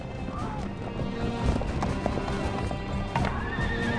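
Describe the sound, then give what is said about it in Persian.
Horses of approaching riders in the desert gallop with a dense, continuous drumming of hoofbeats, and a whinny rises above the steady clatter. “فرار کنید! آنها دارند می آیند! سواران به ما نزدیک می شوند!”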